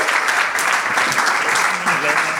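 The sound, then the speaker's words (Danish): Loud, dense audience applause at a live comedy show welcomes a songwriting duo to the stage. The clapping is continuous for the whole short stretch, with a faint voice underneath. “Giv dem en hånd. Giv dem en kæmpe stor hånd.”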